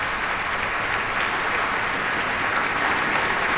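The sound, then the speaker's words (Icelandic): A concert audience applauds after a violin and cello performance: dense, steady, loud clapping that holds evenly throughout without breaks. “Og hann því komin aftur fram á svið og þau neyja sér bæði tvö og taka við fagnaðarlátum tónleika gesta.”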